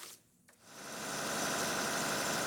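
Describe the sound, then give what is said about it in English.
Electric generator running during a power outage in Khartoum, Sudan: a steady, dense mechanical drone that starts briefly quieter, then swells and holds at an even, loud level. “Ahmed Yaqub checks on his generator several times a day to make sure it's running properly.”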